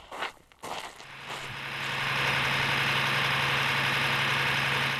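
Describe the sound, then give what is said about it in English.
Steady, loud mechanical drone of a pump drawing lithium brine from under a salt flat at an industrial lithium plant, with a low constant hum. A few uneven knocks come first, then the sound settles into an unbroken roar. “Inside the plant, dozens of these pumps are used to extract lithium brine from under the salt flat.”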